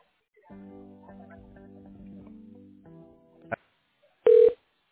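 Telephone tones as a call is transferred to voicemail: a steady layered electronic tone for about three seconds, a sharp click, then one short, loud high beep.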